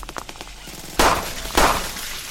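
Video game gunfire while shooting at a cord: two sharp, loud bursts of shots about half a second apart, rising abruptly above a quieter background of game sounds.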